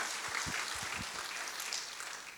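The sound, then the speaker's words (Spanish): Congregation clapping for the Lord at an evening Spanish-language church service, a dense continuous patter with a few low thumps early on, easing slightly toward the end. “Un aplauso para el Señor en esta noche.”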